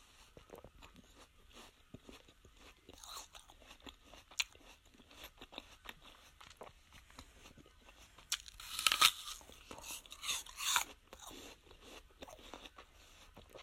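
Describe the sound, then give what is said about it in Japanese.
Crisp crunching bites into a large apple, then wet chewing. Soft chewing and small crunches come first, followed by a few loud, sharp crunch bursts. “いただいたリンゴ。今ちょっと2かじぐらいしたんですけど、かなり大きいりんごなんですけど”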